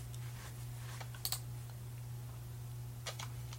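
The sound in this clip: Faint mouse clicks while setting a desktop picture on a multi-monitor computer: a few soft, sharp ticks in two brief bursts over a steady low hum, with no talk.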